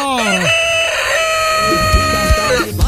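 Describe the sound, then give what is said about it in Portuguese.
A rooster crows in a farm setting: one long, loud, wavering crow lasting over two seconds, followed by a few short, lower clucking calls near the end. “Olha o galo cantando aí, minha gente! Cocorococó!”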